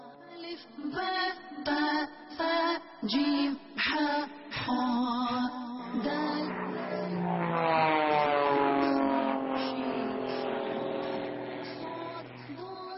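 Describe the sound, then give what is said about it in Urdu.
An airplane flying past, a droning engine whose harmonics slowly sink in pitch as it passes, preceded by a series of short pulsing bursts, all fairly quiet and without voices. “یہ ایک اور جہاز آ رہا ہے”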